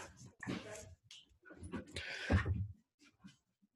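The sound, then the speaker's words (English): A female dog makes a few faint, broken bursts of sound in a quiet setting, short rough yelps or barks separated by brief gaps. “And that was my dog, sorry.”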